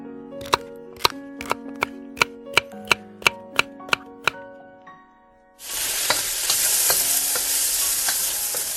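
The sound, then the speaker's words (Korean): Chopped onion and peppers are stir-fried in oil left from frying shrimp, and they sizzle loudly and steadily through the second half. Before that comes a run of sharp, evenly spaced taps. “아까 새우를 볶던 기름에 이 채소들을 넣고 볶아.”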